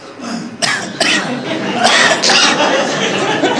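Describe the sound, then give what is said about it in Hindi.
A person coughing during a first-aid demonstration for choking, with a few forceful, breathy coughs mixed in with talk. “खांसी करो”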